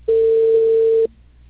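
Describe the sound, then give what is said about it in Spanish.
A telephone tone after a dropped call: one steady, mid-pitched electronic beep that lasts about a second and cuts off abruptly, leaving near silence. “Sí, se colgó la llamada.”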